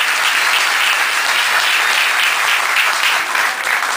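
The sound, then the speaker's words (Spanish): Loud applause fills the inauguration of a nursery school, given for the cooperative workers who built its playground equipment. The clapping is dense and sustained, a steady roar of many hands with no talk over it. “Así que también un fuerte aplauso para ellos.”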